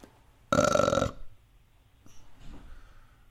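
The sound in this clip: A voice imitates a loud belch: one sustained, throaty burp of about half a second stands out alone, followed by faint, scattered small sounds.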